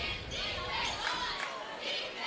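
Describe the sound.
A basketball is dribbled up the court in a women's game, its faint bounces largely masked by steady crowd noise and talking.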